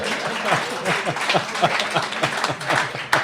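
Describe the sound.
Applause from an audience at a live show: scattered clapping at moderate volume, uneven and bursty, with voices talking over it throughout the few seconds.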